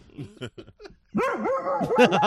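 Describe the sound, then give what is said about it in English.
A dog barking and yelping, a few faint short sounds first, then a continuous run of loud, wavering whining barks. “Yeah, you bark, you bastard. You son of a bitch, you bark until I say otherwise.”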